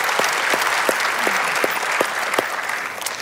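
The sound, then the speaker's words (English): Church audience applause as campuses welcome one another and online viewers: a full, steady round of clapping from many people, with a few sharper individual claps standing out above the mass. “So by applause in all of our campuses, would you just welcome each other, and especially those that are online with us right now?”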